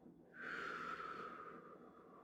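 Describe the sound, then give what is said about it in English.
A person takes a slow, deep breath, a soft airy hiss sustained for nearly two seconds, faint and alone. “I want you to breathe in with me and release.”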